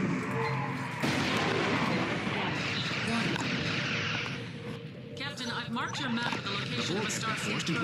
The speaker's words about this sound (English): Let's fire, on the Borg. The targeting algorithm will automatically trigger as it finds breaks in their firewall.